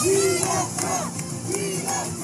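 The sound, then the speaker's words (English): A crowd gathered outside a bodega at 139th and Broadway in Upper Manhattan shouts during a former president's visit. Loud, sustained yells rise over a dense, continuous din of overlapping voices. “Crowds gather in Upper Manhattan as former President Trump visits a bodega.”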